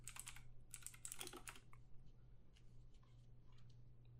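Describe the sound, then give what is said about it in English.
Faint typing on a computer keyboard into a Google search: clusters of light, rapid key clicks at the start, then sparser, quieter taps over a low steady hum. “I literally just typed H in the Google search”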